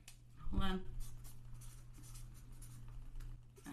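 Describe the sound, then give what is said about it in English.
A pen writing on paper, with faint, scratchy strokes continuing over a steady low hum. A brief voiced sound occurs near the start. “I don't know if you can hear it. Can you hear it? Yeah, I can hear you writing.”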